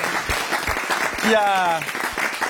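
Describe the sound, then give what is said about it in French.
An audience claps for a presenter, with scattered, fairly quiet claps mixed with people talking, and the clapping swells briefly in the middle. “Ok, ouais, on applaudit Félix.”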